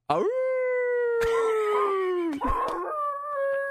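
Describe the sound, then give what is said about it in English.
A human voice imitates a wolf howling at sunset, holding one long tonal howl that slowly sinks in pitch. A brief rough break comes near the end before the howl carries on. “And it's like sunset, and the wolf is howling.”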